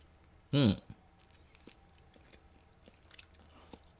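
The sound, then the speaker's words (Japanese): A bite into food dipped in mayonnaise gives one short, loud crunch early on, followed by a near-silent stretch with only faint small noises. “そのまま普通に食います。いただきます。じゃあマヨネーズつけて。”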